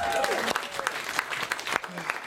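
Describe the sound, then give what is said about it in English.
Audience applause: a dense, steady patter of many hands clapping, loud and even throughout with a brief voice over the start. “She's not here, so you don't have to clap or anything.”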